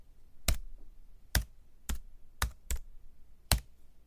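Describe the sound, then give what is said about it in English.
Six crisp key taps on a computer keyboard at an uneven pace, each a short sharp click standing alone against near silence. “I love the sound when I type on the computer.”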